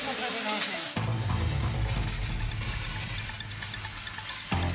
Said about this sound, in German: Wir müssen jetzt erstmal hier massiv Wasser draufhalten. Wir brennen massiv Unrat.